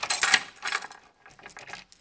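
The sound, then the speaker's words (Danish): A bunch of keys to all the doors of a school jangles on a school janitor's belt, with two bright metallic rattles followed by a string of lighter, quieter jingles. “I bæltet har han bundet med nøgler til alle skolens døre.”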